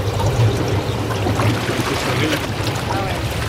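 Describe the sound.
Water flows and bubbles in a jacuzzi at a nature retreat above Lake Maggiore, a steady, fairly loud rushing and trickling wash that continues without a break.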